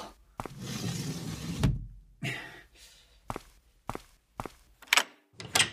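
A door is opened with a rush of rustling noise, followed by several sharp clunks and thumps spaced unevenly.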